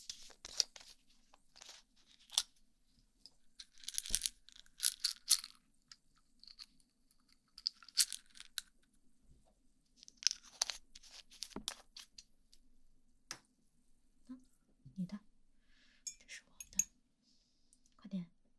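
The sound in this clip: People eating crunchy food, with quiet crisp crunches and chewing in irregular bursts, now dense, now sparse, and soft voices at times between the bites.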